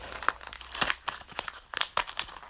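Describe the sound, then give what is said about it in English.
A paper envelope torn open with one hand: a quiet run of crinkling, rustling and tearing, made of many small, irregular crackles, with no talk. “That's me opening the envelope, trying to with one hand.”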